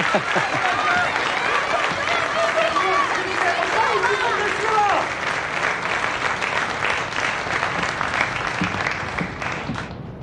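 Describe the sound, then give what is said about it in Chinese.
An audience applauds to welcome a poet before a poetry recitation: steady, continuous clapping with a few voices mixed in, loud at first and fading slightly toward the end of about ten seconds. “掌声欢迎。”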